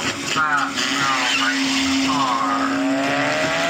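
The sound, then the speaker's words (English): A hijacked car speeds off during a chase, its engine a loud, steady drone with a whining tone held throughout, while squealing tire sweeps rise and fall over it. “Mikhail has now hijacked a new vehicle. Now. And once more, the chase is resumed.”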